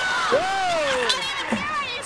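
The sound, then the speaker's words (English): Crowd noise at a women's basketball game in Sydney, a continuous roar of many spectators cheering beneath voices that talk over it, with brief swells of louder shouting. “Like, Sydney has definitely come out to play and watch women's basketball. They sure have. It's a hell of a crowd.”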